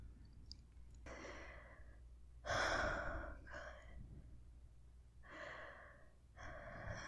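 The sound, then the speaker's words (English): Heavy, ragged breathing of a person struggling to regain their breath: a few loud inhales and exhales separated by short pauses, one sharper gasp louder than the rest, with no talk. “Not doing a very good job at regaining my breath right now.”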